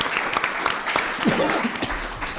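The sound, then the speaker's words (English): Audience applause welcoming a congressional candidate at a Southwest Wisconsin candidate forum. Steady, dense clapping from many hands keeps an even loudness throughout. “Please give her a hand.”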